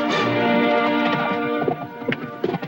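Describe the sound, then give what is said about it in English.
Horse hooves clip-clopping as a rider crosses a valley toward a canyon: a few uneven hoof knocks come in during the second half, beneath a steady sustained tonal drone. “As Jonas rides across the valley toward the canyon, he's followed by another man on horseback.”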